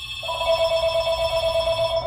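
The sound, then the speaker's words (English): A telephone ringing at a shoe repair shop: one continuous electronic ring with a bright, rapidly pulsing warble, heard alone against a low background hum. “Now, despite a sign on the door that says they're closing up, loyal customers can't stop ringing the doorbell and the phone.”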